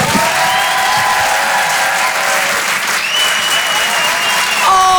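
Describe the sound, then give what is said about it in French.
Loud, sustained applause with some cheering and whistles from a comedy club audience at the Apollo Théâtre in Paris as they welcome comedian Paul Taylor on stage; the clapping stays steady throughout. “Faites du bruit, s'il vous plaît, pour le phénomène Paul Taylor.”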